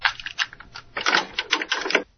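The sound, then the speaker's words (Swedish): Plastic clicks and clatter as a cassette is pushed into a cassette deck in a radio studio, a rapid, dense run of sharp mechanical taps lasting about two seconds, with no talk. “Här tror jag vi har ett kassettdäck som vi kan försöka använda, ska vi se. Då kan jag stoppa in kassetten här.”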